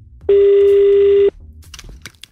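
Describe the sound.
A telephone call rings unanswered: one steady, loud buzzing tone lasting about a second, followed by quiet with faint scattered clicks.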